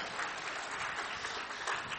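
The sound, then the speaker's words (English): Members of a church audience clap in faint, steady, dense applause, with no voices over it. “Now, those of you who are clapping, you're members of Calvary, and you've been here a long time.”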